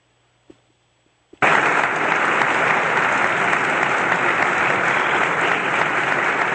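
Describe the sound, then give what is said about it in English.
Loud audience applause bursts in abruptly after a short quiet stretch with a couple of faint clicks, as a performer in a sheriff costume and spurs walks onstage. The dense clapping then holds steady and strong to the end. “You're going to hear me walking out. You'll very clearly hear the spurs. And again, I'm in the sheriff getup, and you'll hear the audience's reaction.”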